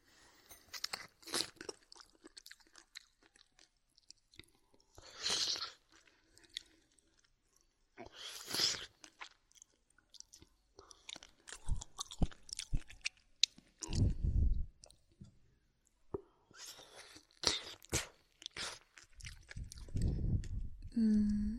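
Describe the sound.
Someone chewing food while eating: many faint, irregular crunchy bites and wet munching sounds, with quiet pauses between bursts.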